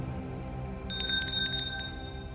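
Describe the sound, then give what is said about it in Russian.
A small hand bell rings in a quick run of many bright, jingling strikes lasting about a second, clear and fairly loud over a low steady background hum. “Царица звонит в колокольчик.”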